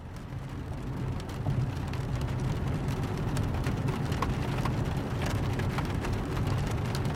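Rain falls on maple and spruce leaves, a dense, even patter and hiss that holds at a constant level throughout.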